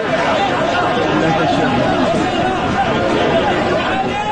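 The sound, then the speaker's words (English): Crowd noise rises from thousands of migrants coming off the beach into the streets of Ceuta, a dense, continuous babble of many voices that stays loud and steady throughout. “This is the sound of some of those thousands as they came off the beach and headed for the streets of Ceuta on Thursday.”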